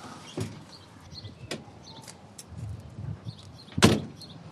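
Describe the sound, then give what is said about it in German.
A window being shut: a few light knocks and clicks, then one sharper, louder bang near the end, all fairly faint overall. “Die Bank noch abschließen. Fenster zu.”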